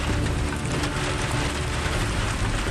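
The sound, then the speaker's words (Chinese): Heavy rain pours down in a steady, dense, loud hiss with no breaks, on a day of trying to head up into the mountains. “今天这个雨有点太大了，估计这个还打雷”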